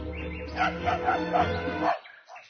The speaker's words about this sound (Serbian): Gromki lavež je prekide u sanjarenju.